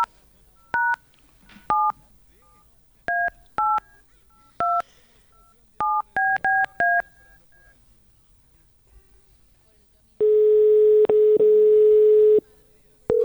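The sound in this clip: A telephone dials out with nine short touch-tone beeps in uneven groups, the last few in a quick run. After a pause, a long steady line tone sounds.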